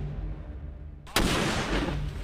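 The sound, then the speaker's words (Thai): Gunfire and explosions from a viral video of shooting and thrown grenades: a low rumble gives way to a sudden sharp blast, followed by sustained loud, roaring, crackling noise. “มีทั้งยิงทั้งปาระเบิดครับกับคลิปที่ชวนเข้าใจผิดว่าเป็นเหตุการณ์ระหว่างไทยกัมพูชาที่เกิดขึ้นจริง”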